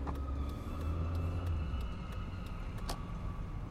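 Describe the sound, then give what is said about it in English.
Steady low rumble of a car driving across an island on a sunny morning, with engine and road noise holding even throughout and no voices. “and so I head across the island to sit down with him in his own home. It's a beautiful morning for a drive.”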